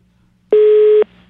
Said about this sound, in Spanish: perdimos el contacto allí, fue muy rápida la llamada.